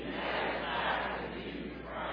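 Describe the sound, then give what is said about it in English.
A church audience shouts together during a sermon, making a faint, continuous blended roar of many voices with no distinct words. “Come on, elevate your voices and help me shout at the virtual audience, if you will.”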